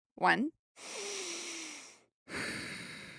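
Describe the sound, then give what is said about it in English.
Deep breaths are taken together by a group with eyes closed. A brief voiced sound is followed by two long, airy, steady rushes of breath separated by a short silence. “let's close our eyes and take 3 deep breaths with the people around us.”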